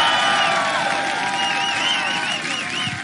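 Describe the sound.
A crowd at Camp Julian cheers loudly and steadily. High whistles and whoops rise and waver over a dense wash of shouting throughout.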